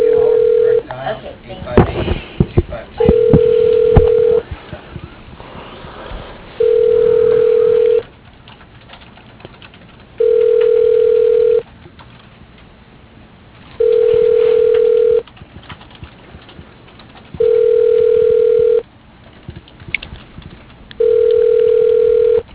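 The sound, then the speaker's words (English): An unanswered phone call rings out as a steady ringback tone: seven identical long beeps at even intervals, with brief talk and rustling near the start. “Oh, come on, answer the fucking phone.”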